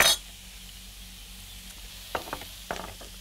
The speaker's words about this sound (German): Die Zwiebel lasse ich jetzt auch gut Farbe nehmen. Du kannst jetzt wirklich noch ein klein wenig von meinem Butterschmalz reinmachen.